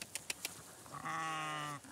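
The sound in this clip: A Shropshire sheep gives a single drawn-out, wavering bleat, faint overall, preceded by three soft, quick clicks.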